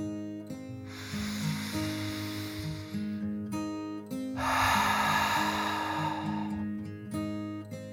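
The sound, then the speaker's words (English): A deep breath in and out from a dragon: a softer airy hiss drawn in, a brief pause, then a louder, longer rushing exhale, all over gentle sustained music. “Then his dad took a deep dragon breath, in and out.”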